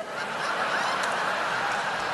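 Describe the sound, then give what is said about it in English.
A person imitates a live chicken clucking in a busy restaurant, producing a continuous, moderately loud run of throaty, squawking cackles with no pause. “Wow, you just turned Sichuan chicken into a live chicken.”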